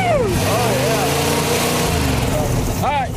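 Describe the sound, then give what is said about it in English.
An old hearse engine running steadily after being brought back from dead, a constant low mechanical drone throughout, with people cheering and whooping over it. “We got a motor, buddy. It runs good.”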